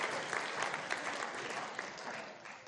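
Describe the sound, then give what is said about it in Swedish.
A church audience applauds in a steady, dense patter of many hands clapping together, soft and even throughout without a clear start or stop. “Give Jesus a mighty praise. Amen. Ge Jesus en stor applåd.”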